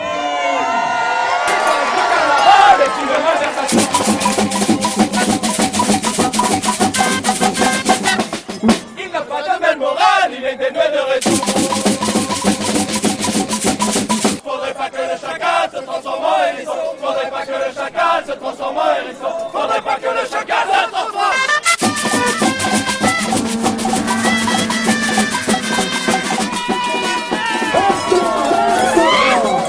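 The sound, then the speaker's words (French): Batucada drums drive a dancing crowd through the streets at the Montpellier Mardi Gras carnival. Dense, loud percussion runs without a break, with crowd shouts and cheers mixed in. “C'est le son de la batucada qui nous guide à travers les ruelles. On entend aussi les fifres, une foule qui danse à travers la ville.”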